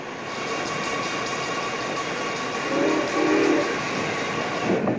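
A passenger train chugs past a harbor with a loud, steady rolling rumble that swells slightly midway and continues without pause.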